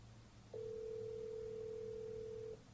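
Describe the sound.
A telephone line rings for a call-in with one steady, low electronic tone that holds evenly for about two seconds, alone over faint background hum.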